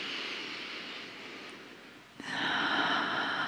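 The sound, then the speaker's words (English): A deep breath drawn in, heard as a soft airy hiss that swells suddenly louder partway through and holds steady to the end. “And then once more, nice big breath in.”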